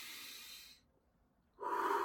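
Slow relaxation breathing, a long calming breath used against fear and anxiety: two soft, airy breath sounds separated by a quiet pause, with no talk.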